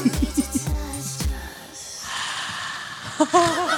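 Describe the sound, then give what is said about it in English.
Someone breathes heavily straight onto a microphone: a few puffs and snorting gasps with deep thumps, then a softer hiss of exhaled air and a brief voiced sound at the end. “I'm not cleaning that microphone, and you just, like, put your hot STD breath all over it.”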